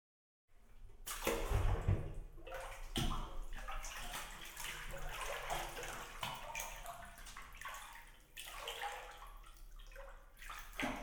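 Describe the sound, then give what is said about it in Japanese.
Bathwater sloshes and splashes as someone gets into a bathtub. A brief silence comes first, then a loud burst of surging water, followed by steady swishing and lapping that carries on with smaller swells until the end. “じゃあ、湯船に浸かってくれるかい？”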